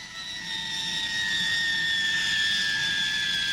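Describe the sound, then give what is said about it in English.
A blue and silver de Havilland Comet jet airliner at Hatfield gives a steady, loud engine roar, with high whining tones that drift slightly downward in pitch. “The beautiful blue and silver Comet was back at Hatfield, 3,500 miles non-stop from New York.”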